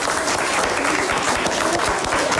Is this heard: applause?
yes